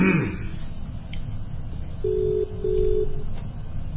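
Two short, steady electronic telephone tones for an incoming call sound just after the midpoint, at a mid pitch over a faint background murmur.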